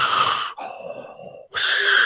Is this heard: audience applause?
no

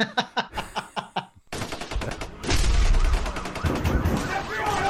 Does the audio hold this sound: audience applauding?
no

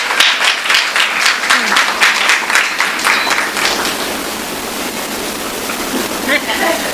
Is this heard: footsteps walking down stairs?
no

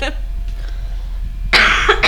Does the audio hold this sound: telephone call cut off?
no

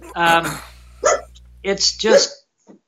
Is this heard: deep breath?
no

